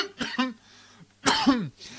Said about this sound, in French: J'aime bien faire ça, un petit live de temps en temps. Hein. Ça me fait tousser, par contre.